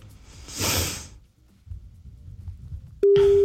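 A telephone ringback tone while a call is being placed. A soft rushing noise and low murmur come first, then a steady, single-pitched tone starts abruptly near the end.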